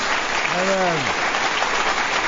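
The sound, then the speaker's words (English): Audience applause welcoming a Broadway singer to the stage: dense, steady clapping throughout, with a brief voice rising and falling over it midway. “I got to get that track of the clapping so my wife acknowledges me every once in a while.”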